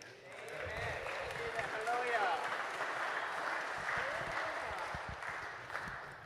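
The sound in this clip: A church audience applauds, a faint, even wash of clapping running beneath a person speaking.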